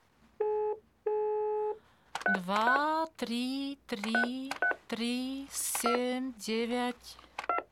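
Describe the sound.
Two steady electronic telephone dialing tones sound while someone calls a consulate. Each tone lasts about half a second with a short gap between them, and voices follow.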